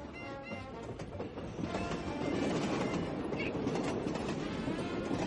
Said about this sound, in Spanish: Me hizo olvidar por un momento que íbamos caminando sobre rieles.